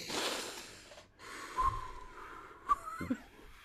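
A deep breath, faint and close: a breathy inhale with snort-like gasps and a few short, rough bursts of air.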